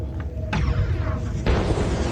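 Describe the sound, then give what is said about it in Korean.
An explosion sound effect follows a laser beam firing: a dense, rumbling roar that surges twice, with a deep low end and a harsh, noisy top, sustained throughout. “폭발음과 함께 섬광이 번쩍였고 던더 차일드의 갑판과 굴뚝이 하늘 높이 튀어올랐다. 화성인은 거대한 폭발음에 비틀거렸다.”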